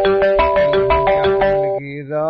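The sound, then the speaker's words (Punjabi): A telephone ringtone plays as a rapid series of bright electronic tones in a repeating melodic pattern. The tones are loud and continuous, then shift to a lower steady tone near the end. “ਤੇ ਆ ਚੱਕੋ ਤਾ ਜੀ telephone,”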